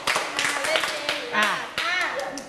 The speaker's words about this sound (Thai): ปรบมือ5ครั้ง ปรบได้กว่านี้ปรบใหม่อีกทีไม่ดีเลย